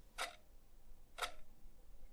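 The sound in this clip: Two crisp, dry ticks from a clock's second hand, spaced about one second apart, faint against quiet low background noise.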